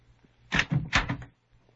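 A door being opened: a short cluster of clattering, knocking thuds and a rattle, a few quick bursts packed into under a second, heard alone with no talk over it.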